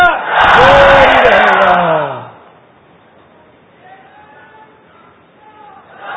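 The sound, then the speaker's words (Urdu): A crowd chants a Dawat-e-Islami religious slogan in one loud, sustained shout of about two seconds. It then drops to near silence with only faint voices. “دعوت اسلامی والوں کا نعرہ کیا ہے؟ فیضان مشکل کشا.”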